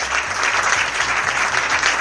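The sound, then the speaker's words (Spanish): Audience applause at a film festival closing ceremony after the best documentary award is announced. Steady, even clapping fills the whole moment at a constant loudness, with no voices standing out. “Fuerte el aplauso.”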